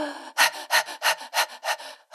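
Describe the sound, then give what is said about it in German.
Rhythmic, breathy panting demonstrated as a breathing technique for getting through labour contractions, with the tongue held against the palate. It comes as a steady series of short, even huffs separated by brief gaps, with no talking. “Und nach dreimal Hecheln ist die Wehe vorbei.”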